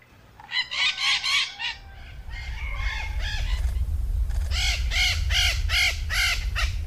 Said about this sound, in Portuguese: E aí, você já sabe de quem é o canto? Quem disse maritacas acertou.